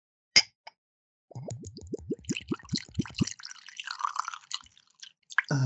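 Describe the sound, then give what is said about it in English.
Whiskey glugs out of a freshly uncorked bottle into a glass in a quick, regular run of hollow, bubbling pulses. A sharp click comes first. A brighter, splashing trickle follows the glugs before the pour ends. “Okay, let me pour now. Pour it.”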